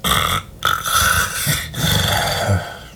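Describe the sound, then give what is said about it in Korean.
Snoring from a sleeping figure in a tense night-time scene: a few loud, rasping, throaty snores in an uneven rhythm, with no talking. “이러다가 귓구멍으로 심장이 튀어나오겠다고 생각하는 순간 코 고는 소리가 선명하게 들렸다.”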